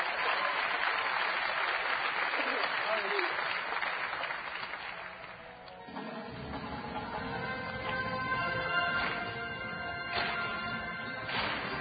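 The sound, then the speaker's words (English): An audience claps to welcome the Brooklyn Tabernacle Singers with dense, sustained applause that eases briefly midway, then carries on with some sharper, more distinct claps standing out. “Let's put our hands together and welcome the Brooklyn Tabernacle Singers. Welcome them.”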